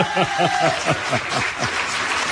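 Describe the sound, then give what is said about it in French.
An audience applauding workers from a swimwear factory at a gathering. The clapping is steady and dense throughout, with voices mixed into it. “et vous pouvez les applaudir.”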